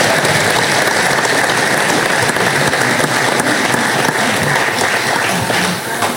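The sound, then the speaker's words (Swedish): An audience applauds with dense, steady clapping, loud and unbroken for the whole clip, easing slightly right at the end. “Och vi tackar dem med en applåd igen.”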